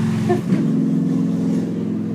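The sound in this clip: An outdoor motorcycle engine drones with a steady, buzzing harmonic hum, fairly loud and even throughout, with slight wavering in tone as it passes.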